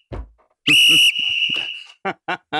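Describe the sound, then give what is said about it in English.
A referee-style whistle gives one shrill, steady blast of about half a second, then a fainter tone lingers briefly. A few short bursts of other noise come before and after the blast. “you have to whistle, man”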